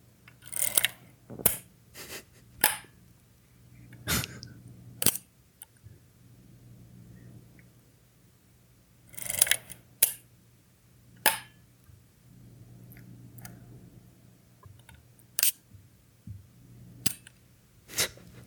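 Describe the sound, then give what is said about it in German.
Mechanical shutter clicks of a Zeiss Icon Contessa rangefinder camera built between 1963 and 1966: many sharp, dry clicks and ratcheting snaps, irregularly spaced, some clustered and some isolated, over a faint low hum. “Ich fange mal mit der Kamera an, die ich von meinem Vater übernommen habe. Er muss sie Anfang, Mitte der 1960er Jahre gekauft haben, denn sie wurde von 1963 bis 66 gebaut und galt damals als gehobene Ausstattung. Es handelt sich um eine Zeiss Icon Contessa Mart SE.”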